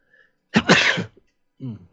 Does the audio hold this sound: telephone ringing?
no